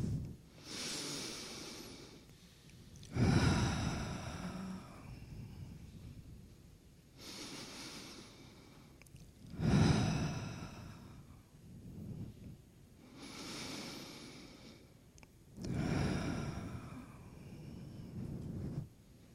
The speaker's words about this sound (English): On va prendre three breaths.